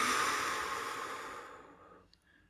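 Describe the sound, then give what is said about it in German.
A long, deep breath during a guided relaxation breathing exercise, loudest at the start and fading steadily over about two seconds, with no talking. “Tief einatmen über die Nase und aus über den Mund.”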